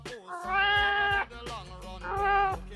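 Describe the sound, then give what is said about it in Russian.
A kitten meows in a few high, drawn-out calls with a clear tone, loud and separated by short pauses. “Она мяукнула, и котенок мяукнул в ответ.”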